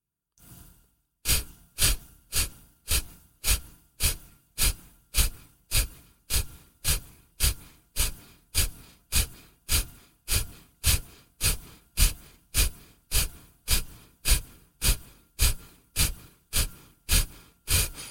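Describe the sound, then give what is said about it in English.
Breathing in through the nose and out through the mouth during a guided pre-race pranayama session: many rapid, evenly spaced breaths in a steady rhythm, each a sharp burst, continuing alone without talk. “Cleansing breath in through the nose. Easy breath out through the mouth.”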